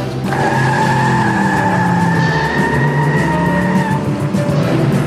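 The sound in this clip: A car pulls away sharply, turns around and speeds off along a road. The engine roars loudly and continuously, and a squealing tire tone holds for about four seconds before fading.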